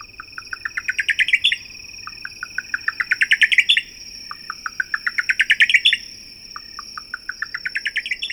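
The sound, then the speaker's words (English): A buff-collared nightjar calls at night in the desert on the Arizona-Mexico border, giving a repeated series of quick clicking notes that rise in pitch to a sharp flourish, several times over a steady background of insect trilling. “in the desert night on the Arizona-Mexico border, a buff-collared nightjar repeats its Spanish nickname, Tucuchillo.”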